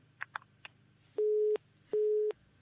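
A telephone busy tone after a caller's line drops. Two long, steady beeps at the same pitch are separated by a short silence, following a few faint clicks.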